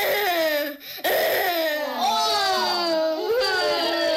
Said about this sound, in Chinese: 别光顾着哭了